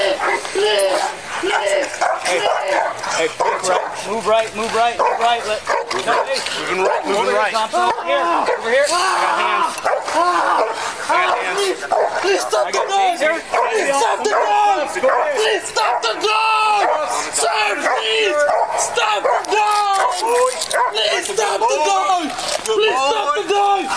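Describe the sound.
A police dog barks and whimpers continuously, with many high, wavering whines and yelps mixed with short barks at a steady, loud level throughout.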